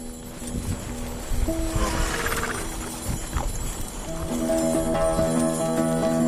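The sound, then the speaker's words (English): Clip-clop of a horse's hooves as it pulls an antique sleigh around a farm, soft irregular thuds mixed with creaks and sustained tonal ringing that grows fuller and louder in the second half. “We hitch up to one of the fancier antique sleighs that'll be selling at auction in a few days and take it out for one last spin around the farm.”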